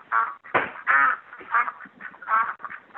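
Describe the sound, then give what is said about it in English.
Rapid, nasal quacking from pet ducks comes over a phone line during a prank call: many short, raspy calls in quick succession, fairly loud and with no talk over them. “Simply, you got ducks.”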